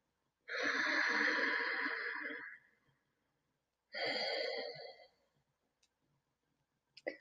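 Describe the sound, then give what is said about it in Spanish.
Two long, deep breaths during a guided meditation, heard as slow, airy rushes. The first lasts about two seconds and the second is shorter, after a pause. A few faint clicks follow in the quiet. “Continúa inhalando largo y profundo y exhalando.”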